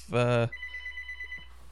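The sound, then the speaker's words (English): A telephone rings once with an incoming call: a short, loud, buzzy electronic ring, followed by a fainter steady electronic tone. “we got a caller. Caller, you're on.”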